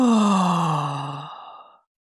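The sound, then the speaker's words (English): A deep, voiced exhale released after a held breath during a guided breathing exercise, sounding as a long, soft sigh whose pitch slides gradually downward while fading out over nearly two seconds. “take a deep breath in, and hold it for a moment, and out.”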